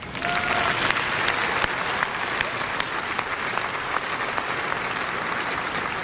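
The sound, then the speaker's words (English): An audience applauds to welcome organizations selected at an announcement event. The clapping is dense and steady, a continuous wash of hands with no break. “Today, we're really excited to announce the 20 selected. We even have a few of them with us today. Let's give them a warm welcome.”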